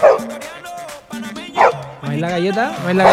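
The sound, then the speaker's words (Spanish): Dog barking in short, sharp yaps mixed in among people talking, the barks rising over the voices a few times across the moment. “a los perritos. Así es. A los nuestros perritos... Ahí está la Galleta, ¿no?”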